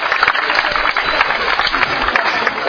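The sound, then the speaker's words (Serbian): Audience applause at a religious quiz event, welcoming the jury's secretary: steady, dense clapping from many hands in a continuous, slightly muffled wash of noise. “volimo da i njega pozdravite sa velikim aplauzom.”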